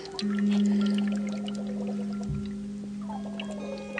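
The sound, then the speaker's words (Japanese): A water kalimba, a water-filled instrument, sounds soft, wavering notes, with a low tone held for a long stretch. A faint pouring and trickling of water runs beneath. “これはあの長野の旅の音楽家さんが考案した水カンリンバというお水が入っている楽器なんですけど”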